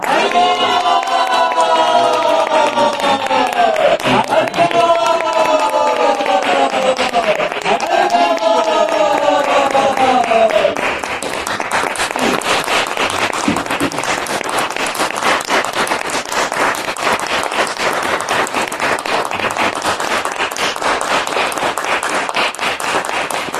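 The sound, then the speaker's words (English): An audience applauds loudly to welcome a guest speaker at an ISV gathering. Dense, steady clapping takes over after an opening stretch of voices and carries on without a break to the end. “we're going to have to make up for it by giving him the warmest, loudest ISV welcome in the history of ISV.”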